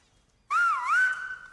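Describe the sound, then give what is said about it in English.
A whistled rendering of the word 'mama' in a whistled language: one loud, continuous, clear whistle that starts abruptly, dips in pitch, rises again, then holds level and fades slightly, with no voices. “And the word he's whistling is mama.”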